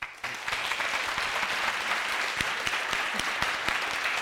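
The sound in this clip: Audience applause welcoming a guest onto a stage: dense, steady clapping from a crowd that starts abruptly and holds at an even, lively level throughout.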